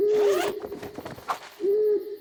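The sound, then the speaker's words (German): Two low, steady owl hoots at night beside a campsite tent, each sustained and even in pitch, separated by a brief scratchy rustle. “das ist eine Eule.”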